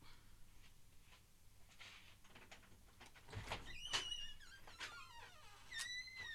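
A studio door is opened with faint creaks and thin squeaks, one soft thud partway through, and several short squeals afterward over low background hiss.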